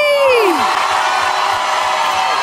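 Audience cheering for the winner of a summer hit contest at a trophy presentation, a loud, sustained crowd roar with a falling whoop at the start and shouts mixed through it.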